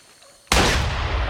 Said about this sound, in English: I'll fire off a shot. What? Fire off a shot!